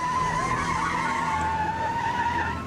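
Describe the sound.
Police cars speeding in a high-speed pursuit, an unmarked unit among them: a continuous loud roar of engines and road noise with a sustained squealing tone running through it, no voices.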